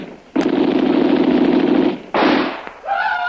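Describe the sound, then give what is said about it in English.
Rapid gunfire in a radio drama: a sharp crack opens a long, loud rattling burst, then a shorter burst follows after a brief gap, and a tonal sound closes it. “I know that bullet wasn't wasted. When that hit, it spun him half around before he fell.”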